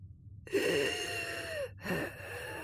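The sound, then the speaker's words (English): A human voice imitates an inspiratory and expiratory wheeze, the high-pitched whistling of air through narrowed airways: a long breathy draw carrying a thin whistling tone, a brief silent gap, then a second breathy, whistling pass. “That's an inspiratory and expiratory wheeze.”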